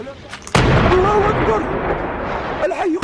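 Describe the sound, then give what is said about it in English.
Artillery shells explode in a residential neighborhood of Homs, Syria. A sudden heavy blast erupts and gives way to a loud, sustained roaring rumble, with voices rising over it near the end. “The shells blasting into a residential neighborhood. The regime's attacks relentless in an area of Homs where thousands of civilians are trapped.”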